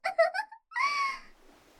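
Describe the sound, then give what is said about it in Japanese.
A person crying: a few short, broken voiced sobs, then a longer drawn-out wail that trails off into a faint breathy exhale. “もう泣かないでよ”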